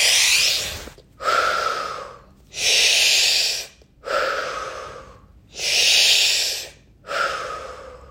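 Deep breathing in and out, six long, loud breaths alternating inhale and exhale, each lasting about a second with short silent gaps between them and no talking.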